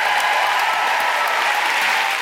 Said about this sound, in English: So please give a huge round of applause to Jess Foster-Kew, Anita Arnond, and Rachel Holmes.